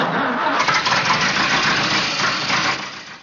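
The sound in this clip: Taxi car engine starting and then breaking down: a loud, rough, rumbling run that holds steady, then fades and cuts out at the end.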